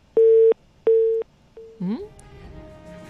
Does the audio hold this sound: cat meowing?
no

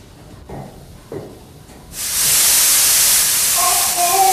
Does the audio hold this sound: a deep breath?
no

